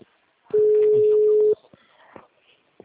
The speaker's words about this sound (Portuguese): Vou ligar agora de novo essa porra.